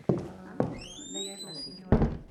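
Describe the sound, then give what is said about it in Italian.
A door being closed gives three dull thuds, with a high, squeaky creak gliding upward between the second and third. “Chiudi la porta.”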